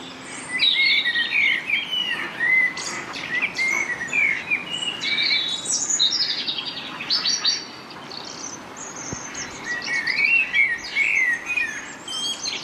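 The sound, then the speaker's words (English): A dawn chorus of birds singing in a park: many overlapping chirps, trills and warbles that flow on without pause, rising and falling in loudness over a soft, steady background hiss. “That sound you're hearing now of the Dawn Chorus is coming from Herbert Park”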